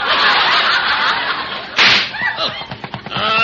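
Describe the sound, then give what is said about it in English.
A tire blowing out, done as a radio comedy sound effect: a long, loud rushing hiss, then a sharp burst just past the midpoint, followed by a few fainter, irregular sounds as the noise dies away. “Bob, that was a flat. We have a flat.”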